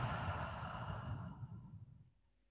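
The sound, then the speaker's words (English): One long, soft exhale during a guided nose-in, mouth-out breathing exercise, airy and breathy, tapering away over about two seconds into near silence. “And one last time, inhaling through your nose and exhaling through your mouth.”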